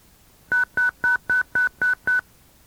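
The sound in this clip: DTMF telephone tones dial a repeater autopatch number: seven evenly spaced, equally loud beeps in a steady rhythm, each a short dual-pitch tone with clean gaps between them.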